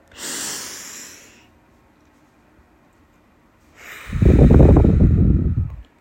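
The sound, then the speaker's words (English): A deep breath taken close to a microphone. A soft, airy inhale comes first, then a stretch of near silence, and finally a long, loud exhale that gusts windily into the mic. “Deep breath.”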